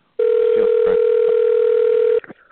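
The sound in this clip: A telephone line tone plays on a forwarded call just before an automated voicemail message. It is a single loud, steady, unbroken tone that holds for about two seconds and then cuts off.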